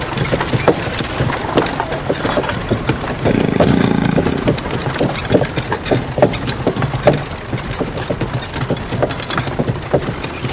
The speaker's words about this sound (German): Die Kutsche jagt in Richtung der Hügel.